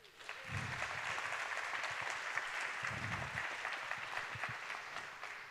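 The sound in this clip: Steady audience applause welcoming a speaker to a talk, a dense, even patter of many clapping hands that stays loud for about five seconds.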